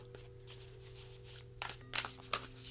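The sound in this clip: Playing cards are shuffled in faint, quick riffling bursts that cluster toward the end, over a low steady hum.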